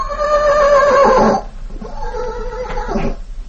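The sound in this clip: A horse named Tarzan neighs loudly: a long, bright, quavering whinny, then a shorter, rougher second call after a brief pause, with no talk over it.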